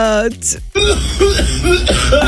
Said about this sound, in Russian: Откашляйся